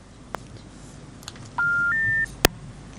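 Telephone line tones as a phone-in caller's call drops: two short, steady electronic tones in a row, the second slightly higher, framed by a few sharp clicks on an otherwise quiet line.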